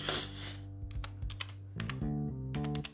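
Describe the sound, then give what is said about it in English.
Typing on a computer keyboard: many quick, crisp keystroke clicks in irregular runs, separated by short pauses, fairly faint. “if you were to go onto the internet and I was to type in hacking tools”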